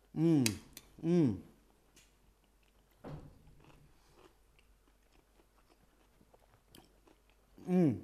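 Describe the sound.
Someone eats lasagna with cutlery, with a few quiet bites, chewing and light clinks of utensils on a plate. A voice breaks in with three loud, drawn-out vocal murmurs, two at the start and one at the end.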